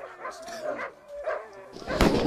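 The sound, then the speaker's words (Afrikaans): Hunters' dogs bark in short, yelping bursts, a few moderately loud calls in quick succession with a stronger burst at the end. “Maar toe, op 'n dag, daag daar 'n klomp jagters op met hulle honde.”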